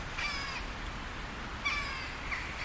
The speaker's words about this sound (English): that's a magpie up there. No, it's not, it's a hooded crow.